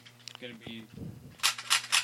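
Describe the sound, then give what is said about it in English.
Toy guns clicking as they are cocked, then a few sharp, loud bursts of cap-style firing near the end, with voices in the background. “Everyone cocking guns and trying to shoot each other.”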